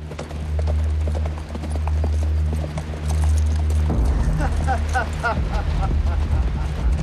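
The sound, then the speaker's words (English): Hooves clip-clopping as three riders on horseback approach, a steady rhythmic clatter over a low hum, with a voice talking over much of it. “Owen and Kara watch as Einan, Brock, and Felton ride towards them.”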